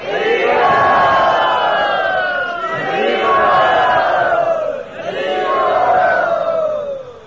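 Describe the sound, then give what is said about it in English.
A crowd chants Hari Bol in welcome, with many voices in unison. The chant comes as three long, loud, sustained phrases that swell and fade one after another. “let us welcome him by saying Hari Bol.”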